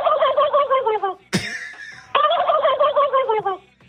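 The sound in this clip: A person imitates a turkey gobble with two long, warbling, throaty gobble bursts separated by a short, harsh, noisy break.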